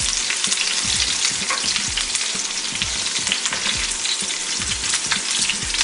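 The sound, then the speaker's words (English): Food with rosemary and thyme sizzles steadily in a pan, a loud, even frying hiss broken by repeated low scrapes and knocks as it is stirred, with no voices. “So you're gonna let this cook for about 1 minute. You wanna stir it all together.”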